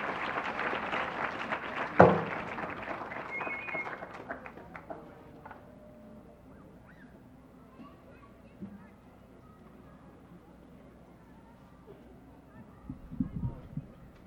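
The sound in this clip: Audience applause welcoming a performer on stage at a festival, a dense burst of clapping that fades over the first few seconds into quieter rustling and murmur.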